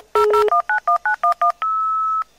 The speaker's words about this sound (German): Als das Internet-Zeitalter begann, musste man seinen eigenen Computer noch mit ein paar Pfeiftönen über Telefon mit einem anderen Computer verbinden.